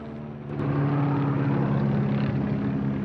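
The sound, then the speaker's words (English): A low-flying airplane passes overhead. A steady, droning propeller hum with low tonal harmonics swells in after about half a second and holds loud to the end. “just as the plane passes low overhead”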